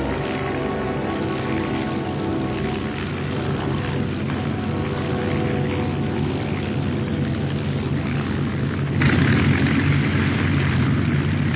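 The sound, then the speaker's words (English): Steady drone of an overheating engine, a constant loud hum with a continuous rumble, growing slightly louder and rougher late on and holding there to the end. “How much longer, Ops? The engine's overheating and so am I.”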